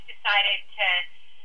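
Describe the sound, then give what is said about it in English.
Two short electronic beeps of a call-waiting signal as another call tries to come in during a phone call. Each tone is steady and mid-pitched, and a brief gap separates the two. “is someone beeping at you? Is someone honking at you? No, you know what? That was another call was trying to come in.”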